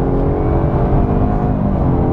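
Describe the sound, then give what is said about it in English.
The engine of a Jaguar car with a 3-litre turbo engine and an automatic gearbox pulls uphill as a loud, steady, low drone. The rumble stays even throughout, and no voices are heard. “And with a 3-litre turbo engine, you should really expect that it's going to be able to lift like this.”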